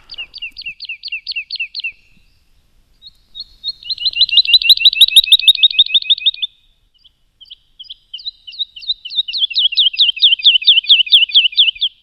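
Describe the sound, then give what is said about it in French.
Woodlark song played back through a small portable speaker: three phrases of rapid, repeated, high liquid notes, each a couple of seconds long, separated by short pauses. The song is clear and alone, with no talk. “Voilà, donc ça c'est le chant de l'alouette Lulu.”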